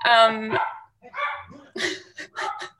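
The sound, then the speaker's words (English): A pack of dogs barks in several loud, uneven bursts with short gaps between them, and a voice is heard talking alongside the barking. “You can hear my pack of dogs out there barking their faces off.”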